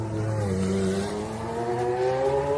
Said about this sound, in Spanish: el McLaren MP44B de 1938, que pilotara Ayrton Senna y que suena así de bonito.